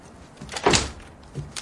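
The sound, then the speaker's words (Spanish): A door swings shut with one firm thud, followed by a couple of fainter knocks as it settles. “Abre la puerta pero no hay nadie. Recoge una carta del suelo y cierra.”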